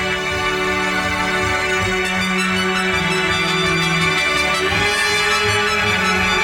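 Instrumental music played only by strings, an orchestral reprise of an album's closing track, with sustained bowed chords and slowly shifting low notes, steady and fairly loud throughout.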